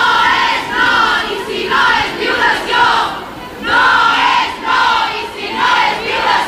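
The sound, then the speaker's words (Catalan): A crowd chants feminist slogans at an evening Women's Day protest in Olot. The loud shouted phrases repeat in a steady rhythmic pattern. “No és no, cap agressió sense resposta o visca la lluita feminista van ser alguns dels lemes que es van cridar aquest dimarts al vespre a Olot en la manifestació amb motiu del Dia de la Dona.”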